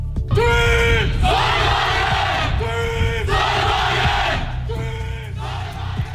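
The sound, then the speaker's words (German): A group of Aachen university students from a solar-car racing team shouts their team battle cry in unison, a loud, continuous rhythmic chant with alternating sustained and clipped phrases throughout. “So hört sich der Schlachtruf des Team Sonnenwagen Aachen an.”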